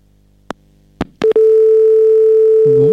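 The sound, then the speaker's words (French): A telephone line after the caller hangs up: a few sharp clicks, then a loud, steady, unbroken tone that holds to the end. “La personne a raccroché. Donc, pas d'appel téléphonique pour cette personne.”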